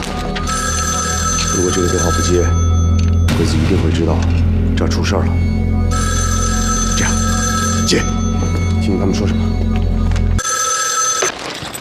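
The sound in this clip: A telephone bell rings in a wartime scene, sounding in several long, shrill bursts separated by short pauses, with voices talking over it and a low rumble underneath.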